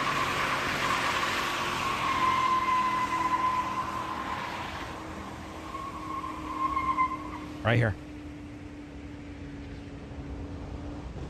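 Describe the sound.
Car engine revving, a steady rough drone under people talking, broken by one sharp exhaust pop near the end before the engine settles back.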